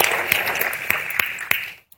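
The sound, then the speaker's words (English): An audience applauds with a dense, steady patter of many hands clapping and a few sharper single claps standing out, then the sound fades quickly to silence at the end. “To me, that deserves an applause, and I want to say it.”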